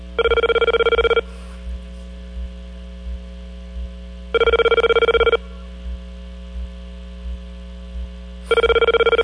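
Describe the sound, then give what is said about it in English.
A telephone rings on an international call to Tokyo. Three long, buzzing ring bursts come about four seconds apart. A steady low hum and faint, regular ticks run between the rings. “Just went to a different country. Tokyo, man. Sounds like a Tokyo ring.”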